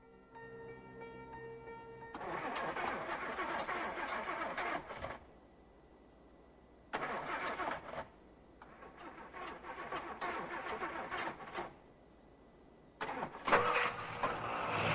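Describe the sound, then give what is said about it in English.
A car parked in a field cranks over in four strained bursts with pauses between them before the engine catches. Each burst is loud and dense, and a faint steady hum fills the quiet gaps. “The engine finally fires and he pulls away.”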